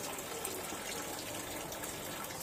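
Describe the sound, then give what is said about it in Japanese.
Running tap water pours while hands are washed, a steady broad rushing hiss at low level that stays even throughout, with no talk. “水の音も入ってるはずね。”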